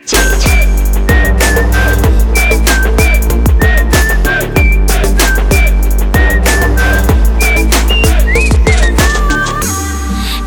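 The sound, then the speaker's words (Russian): A person whistles a tune over loud music with a steady, punchy beat, the clear whistled notes repeating in short melodic phrases throughout. “хватит свистеть. Хватит свистеть.”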